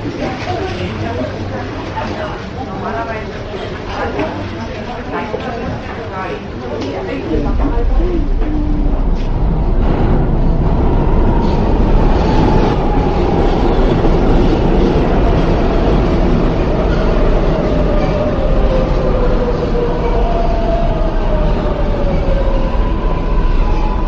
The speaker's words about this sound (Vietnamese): cô luôn ngồi tàu điện ngầm thay cho đi bộ